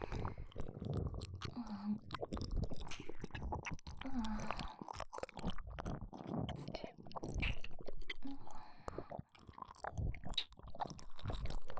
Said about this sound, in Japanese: でもこれも珍しいキノコなんですよ。せっかくなので味見してみますね。